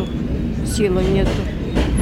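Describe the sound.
Steady low rumble of a moving passenger train carrying families fleeing war from Kharkov, with a thin metallic squeal drawn out briefly in the middle and a clattering texture throughout.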